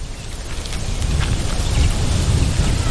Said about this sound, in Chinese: 脆弱的小家伙们都逃到靠近地面的地方，避免雨水带来的冲击。